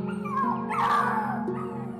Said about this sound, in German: Jetzt springen die kleinen Hunde an dir hoch und wetteifern aufgeregt um deine Aufmerksamkeit.